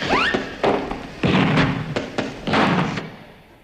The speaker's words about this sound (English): Pop out and fill up the scuttle with some more uranium. Oh, all right. I'll just chuck this last bit on the fire.